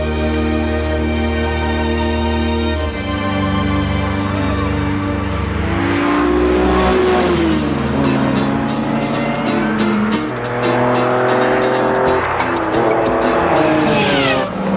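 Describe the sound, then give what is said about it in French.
A Ferrari race car engine roars as it accelerates and passes, with loud harmonic revving that sweeps up and down in pitch over a continuous background. “Ferrari, c'est monstre, hein?”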